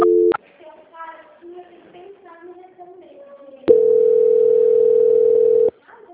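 A telephone tone plays during a call transfer: a brief tone at the start, a quieter stretch, then a steady, unbroken single-pitched tone held for about two seconds before it cuts off.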